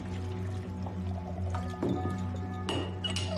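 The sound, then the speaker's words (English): A drink is poured from a decanter into a glass as a steady trickle of liquid over a low hum, broken by a couple of brief glassy clinks, with no talking. “opens a decanter and pours himself a drink.”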